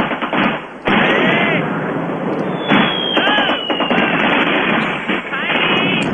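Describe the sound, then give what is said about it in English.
Heavy gunfire aimed at a plane forms a dense, continuous crackle of shots and blasts, with voices talking over it. “Oh, that's a lot, that's a lot of firepower to kill one blonde.”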